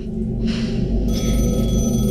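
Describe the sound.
A phone starts ringing midway through, its bright electronic tones entering suddenly and continuing to the end over a constant low, droning musical bed.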